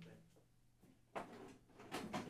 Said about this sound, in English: He opens the drawer.